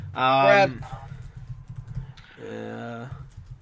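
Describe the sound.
Typing on a computer keyboard, a few light, scattered key clicks sounding between and beneath a person talking.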